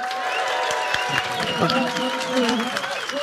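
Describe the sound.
Applause from a live audience at the Chalk History Festival near Salisbury: steady, dense clapping throughout, with voices carrying over it.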